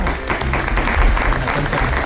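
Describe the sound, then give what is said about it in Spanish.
Studio audience applause welcoming a guest, a loud, continuous wash of clapping that stays even from start to finish. “Vamos a recibirla con un fortísimo aplauso a una gran amiga, una gran profesional, una gran escritora.”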